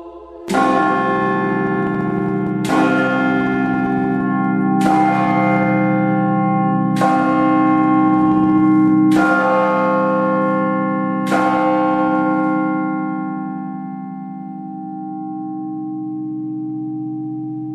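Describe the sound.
Church bells rung by bell ringers sound six deep, loud strokes, spaced about two seconds apart. A long, resonant hum fades slowly after the last stroke.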